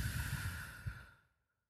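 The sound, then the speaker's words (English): A slow breath out during a guided relaxation exercise: a soft, airy exhale that starts full, then thins and fades away into silence. “First breath in. Breathe out.”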